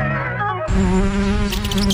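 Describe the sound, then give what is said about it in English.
Buzzing of flying insects in a pest control ad: a steady, droning hum of wings that thickens and grows slightly louder a moment in, continuing without pause to the end. “Bugs bugging you? Rocky Mountain Pest Control in Creston is here to help. From ants to rodents, we tackle all pests.”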